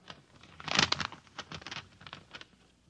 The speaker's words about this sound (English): And now I open the envelope.